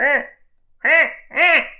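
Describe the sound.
A human voice imitates the laughing call of a black-headed gull with three harsh, nasal squawks: a short one, a pause, then two longer calls close together.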